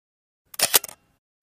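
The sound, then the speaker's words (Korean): A camera shutter clicks at a graveside: one brief, crisp burst of mechanical clicks against silence. “새소리 지저귀는 망자들의 쉼터에 한동안 셔터 소리 들릴 듯 말 듯 울렸다.”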